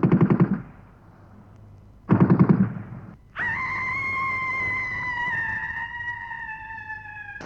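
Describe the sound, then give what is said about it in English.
Gunshot sound effect: two short, loud bursts of gunfire separated by a pause of over a second, followed by a long, steady high-pitched ringing tone that holds to the end. “And you decide to shoot yourself.”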